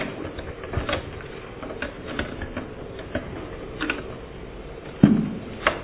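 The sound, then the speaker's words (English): A cassette tape being turned over in a recorder: a run of small plastic ticks and clicks, then a sharper clunk near the end followed by one more click. “I'm going to turn the tape over before it runs out.”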